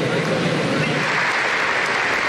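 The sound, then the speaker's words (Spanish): A sustained ovation at a presidential inauguration ceremony in Congress: thick, even roar of many hands clapping at constant loudness, with no breaks throughout. “Entre aplausos y una sentida ovación, el presidente del Senado, Honorio Enríquez”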